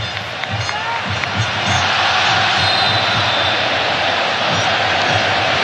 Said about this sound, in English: This is the kind of atmosphere inside the stadium now that we were expecting to hear a lot more of.